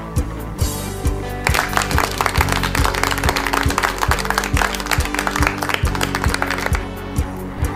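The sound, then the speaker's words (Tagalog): First-grade children clap for themselves after a lesson, producing a dense, steady patter of many hands that runs the whole time, with a regular low thump beneath it. “Palakpakan ninyo ang inyong mga sarili.”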